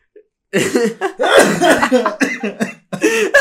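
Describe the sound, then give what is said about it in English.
Coughing and sputtering from someone who choked on gummy fish candy: several harsh, voiced bursts in quick succession after a brief silence, mixed with throaty, laugh-like sounds. “There were gummy fish going down my throat, man. I choked on it.”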